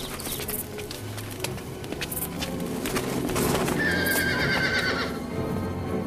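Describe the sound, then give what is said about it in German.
Horses whinny and their hooves clip-clop steadily, with small birds chirping throughout. The hoofbeats and neighing build slightly louder, and a high, drawn-out whinny cuts through near the end. “Pferde!”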